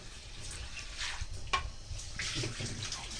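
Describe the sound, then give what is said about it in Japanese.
Washed rice and its rinse water being tipped into a colander to drain, giving a steady wet rush of splashing and trickling water with a brief sharper knock near the middle. “そしたらザルに、お水を切るためにザルにお米を移します。”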